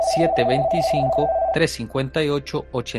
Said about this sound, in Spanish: Tenemos una llamada.